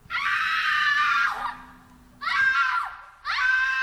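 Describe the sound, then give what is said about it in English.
Stock children's screams from the film Hook, in a scene where kids are kidnapped: three shrill, piercing bursts of screaming separated by short gaps, with a low hum under the first. “While this is going on, the kids get kidnapped, and it would be freakier, except they use the most stock fucking screams for those kids.”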